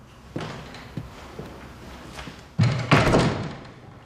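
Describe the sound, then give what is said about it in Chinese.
A door being shut: a few soft knocks and thumps, then two louder, heavier thuds close together as it closes, the last one fading briefly. “把门关上。”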